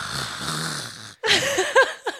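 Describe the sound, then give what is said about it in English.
A voice imitates a big man's loud yawn: a long, breathy, droning groan, a brief silence, then rougher rising vocal bursts and snorting sounds. “And when you yawn, you sound like this.”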